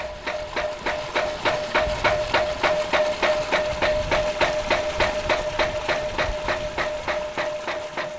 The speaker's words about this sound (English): In Manicaland, it seems the people have found an answer, a simple machine called the ram pump.